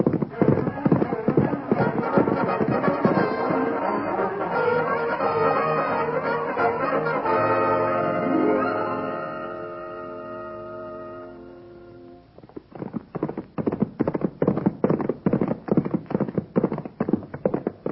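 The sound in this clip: Horses gallop in a Western ride, their hooves clip-clopping in a rapid, even rhythm that fills the last several seconds after a stretch of talk.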